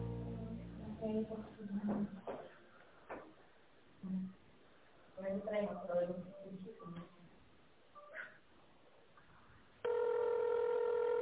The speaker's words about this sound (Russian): Если вы знаете внутренний номер абонента, наберите его, пожалуйста, в тоновом режиме.